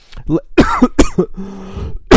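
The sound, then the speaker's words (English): A sudden coughing fit of several sharp, loud bursts, with rough throat clearing and brief breaths between them, ends with one more abrupt burst. “I need to take a sip of water. That cough caught me by surprise.”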